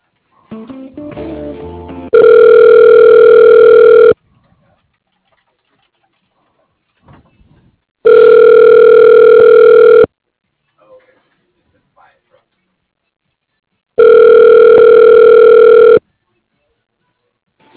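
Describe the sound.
Telephone ringback tone heard while a call is transferred: three long, steady electronic rings of about two seconds each, evenly spaced with silence between them, after brief voices at the start.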